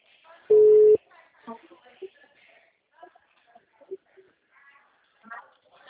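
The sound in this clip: A telephone ringback tone sounds while a bank consultant calls a customer: one loud, steady, mid-pitched beep, about half a second long, followed by a woman talking.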